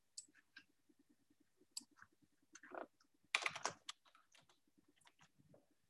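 Keyboard typing as notes are written down during a religious law lesson: light, irregular clicks in short bursts, with a denser flurry partway through, fairly faint and with no talk.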